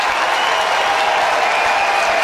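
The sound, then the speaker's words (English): Crowd applause at a baseball game in Pittsburgh, dense, steady clapping from many hands that fills the whole moment at an even, loud level. “And here's a round of applause for him.”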